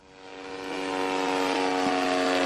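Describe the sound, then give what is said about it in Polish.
Remote-controlled model seaplanes buzz over a reservoir beach during a seaplane model competition, a steady, high engine drone with strong harmonics that swells in loudness over the first second and then holds. “Zdalnie sterowane samoloty opanowały niebo nad plażą w Starym Dworze nad zalewem Siemianówka w województwie podlaskim.”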